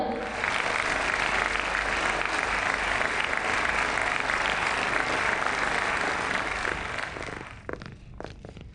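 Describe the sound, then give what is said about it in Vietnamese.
An award ceremony audience claps to welcome two well-known film producers onstage as presenters. The steady, full applause holds for several seconds, then thins and tapers off near the end. “Tiếp theo xin một tràng pháo tay chào mừng khách mời trao giải.”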